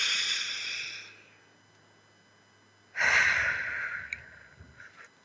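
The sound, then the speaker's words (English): Breathing from a person taking a deep breath during a stress-relief exercise: two long, airy breath sounds, a softer one followed after a quiet pause by a louder, rushing one that fades slowly. “Reduce our stress just in a couple breaths, because we can get pulled so many ways. So one more breath.”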